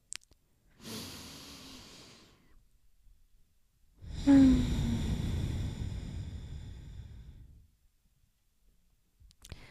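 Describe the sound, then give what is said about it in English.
Slow, deep breathing in a guided breathing exercise: one long airy inhale, a pause, then a longer and louder sighing exhale, with a few faint clicks at the edges. “Okay, let's breathe together so that we find a little more coherence right in this moment.”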